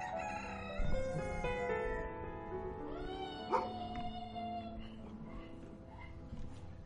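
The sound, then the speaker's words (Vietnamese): A rooster crows in a village, a long, drawn-out harmonic call that holds steady at moderate loudness, with a brief sharper accent partway through. “Tiếng gà trong xóm chợt kháy vang.”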